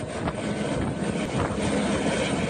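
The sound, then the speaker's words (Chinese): Helicopters loaded with relief supplies take off from a sports-ground playing field, producing a loud, steady roar of engines and rotors that fills the whole clip without a break. “今日上午，2架满载方便面、矿泉水等生活物资的直升机从常德市石门县全民健康活动中心操场起飞，前往受灾严重村落，紧急运送救灾物资。”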